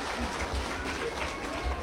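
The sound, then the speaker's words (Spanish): Congregation clapping during a church service, a soft, steady patter of many hands with dull low thumps running through it. “Fuertes palmas al Señor por nuestro hermano.”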